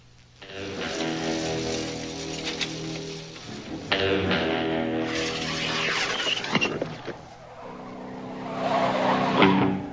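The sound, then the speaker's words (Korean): A car charges head-on during a movie chase. A loud, revving engine roar runs throughout, cut by several sharp tire squeals and skids, with a louder surge of engine noise near the end. “그때 정면에서 베네딕트의 자동차가 돌진해 옵니다.”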